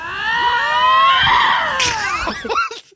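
Harsh, wavering screams from two lynx cats facing each other on a road: one long, loud, strained screech with a high harmonic tone, then a few shorter broken cries as it trails off.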